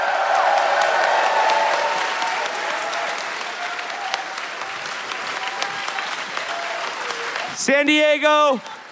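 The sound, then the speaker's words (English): Loud audience applause and cheering at a live show in San Diego, closing out the night. The clapping is sustained and dense, eases slightly, then a loud shouted voice cuts in near the end. “Let's give it up for him. And let's also give it up for Chris Wade's mom and uncle in the audience tonight.”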